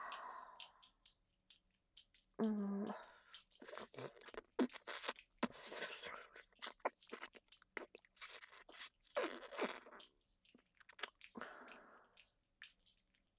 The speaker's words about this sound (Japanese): ほっぺの裏に飴いるの分かりますよね。おいしい。